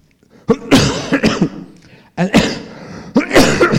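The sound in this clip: Throat clearing by a preacher partway through a sermon, three rough, loud bursts, each made of a few short coughing pulses with brief pauses between them.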